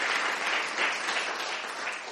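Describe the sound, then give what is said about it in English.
Audience applause for performers at a church gathering, dense, steady clapping from many hands that stays loud and even throughout, with no voices standing out. “Let's give them another big hand clap.”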